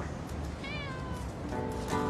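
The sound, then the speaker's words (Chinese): A stray cat meows: a clear, drawn-out cry that falls in pitch, followed by a lower, steadier tonal cry, all over constant background noise. “did anybody lose a cat? Get out of here, go away!”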